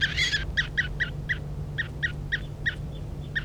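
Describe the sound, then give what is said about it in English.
A handled bird gives a rapid series of many sharp, high chirping calls, each short and evenly spaced, over a steady low hum. “This is bird 3:35 being handled.”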